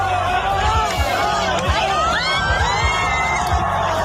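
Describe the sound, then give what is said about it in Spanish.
A concert crowd cheers as the singer jumps into the audience: a dense, steady roar of shouting and whooping voices with sharp cries breaking through. “Hablamos de Manolo García, que si recordáis fue viral la semana pasada por este vídeo.”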